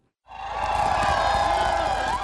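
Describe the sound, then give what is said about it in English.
A raucous, dense crowd on Front Street in Nome, Alaska, cheers and whoops on a cold night for an arriving sled-dog musher, a loud, sustained roar that starts abruptly and holds steady. “Even in the wee hours of a cold night, the raucous, dense crowd stretched for blocks down Front Street to greet Olsom.”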